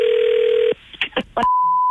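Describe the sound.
A telephone dial tone hums steadily as a prank call is placed, then cuts out. A few short dialing beeps follow, then a thin, steady, higher-pitched tone holds to the end. No voices are heard.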